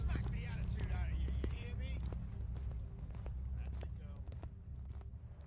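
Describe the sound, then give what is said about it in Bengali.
Footsteps walk along a street as an audio drama effect, a series of soft, evenly spaced steps heard under a steady speaking voice and a low background hum. “Minute খানেক পরে রাস্তা ধরে হাঁটছিলাম। Sergeant আমাদের পেছনেই ছিল।”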